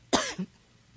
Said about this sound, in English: Sorry. I have a little tickle in my throat.